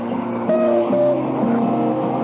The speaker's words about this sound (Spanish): ¡Espere! Ahí va mi autobús.